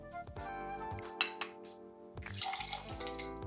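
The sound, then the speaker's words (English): Ice clinks into a glass and a shot of vodka is added for a Bloody Mary. A few sharp, faint clinks are followed by a busier splashy stretch over a steady low tonal hum. “So obviously, going to have to grab some ice and get a shot of vodka.”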